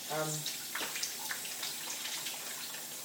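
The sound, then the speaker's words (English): Tap water runs in a steady, full rush while the bottom of a steamer is rinsed out, with a brief voiced sound at the very start and faint splashes through the rest. “Oh, I'm just going to wash the bottom of the steamer out. I don't want soap in there.”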